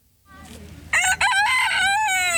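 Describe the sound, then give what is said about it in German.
A rooster crows on a farm in Lower Franconia: one loud, drawn-out crow that begins after a quiet start and ends on a falling, wavering note. “Ein krähender Hahn”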